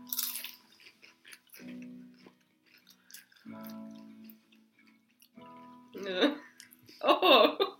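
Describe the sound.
Crunching and chewing of vegetable crisps, parsnip and beetroot, with crisp bites and mouth noises scattered between people talking.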